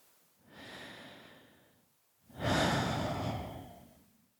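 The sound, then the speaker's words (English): A deliberate breath taken as a pause: two unvoiced breath sounds with no speech, the first softer and the second louder, longer and fuller before it fades away. “what I just did with my breath and that moment, which I call a pause, are the first steps to garnering your own self-control”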